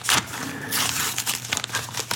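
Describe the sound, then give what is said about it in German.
A paper envelope is handled, giving dry rustling and crinkling with a run of short crackles and scrapes of uneven rhythm. No one speaks. “Ein weiterer Umschlag. Nicht zu öffnen vor dem Tod oder dem Verschwinden von Dr. Henry Jekyll.”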